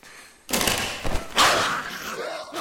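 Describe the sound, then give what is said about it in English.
Heavy thuds of a rifle clubbing a person in the face as an infected attacker strikes in a horror scene, with a few hard blunt impacts following a brief quiet start. “One of the infected attacks Scarlet, hitting her in the face with the rifle. Scarlet! The weapon is used to club her to death.”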